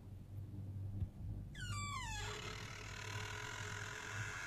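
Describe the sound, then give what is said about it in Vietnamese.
A door creaking open in the next room, heard as one short, faint squeal gliding downward in pitch over a low background hum. “Nói đến đây bỗng nhiên tôi nghe thấy ở phòng bên có tiếng kẹt cửa.”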